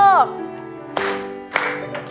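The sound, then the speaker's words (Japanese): Audience hand claps keep time with a sung song, a few evenly spaced sharp claps ringing over sustained singing and music after a voice at the start. “はい、それでは元気よく手拍子で歌いましょう。”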